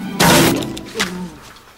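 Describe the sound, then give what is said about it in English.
An owl smashes into a closed window with a sudden heavy thump, followed about a second later by a smaller, softer knock. “Outside, an owl flies toward the window and smashes into the closed half.”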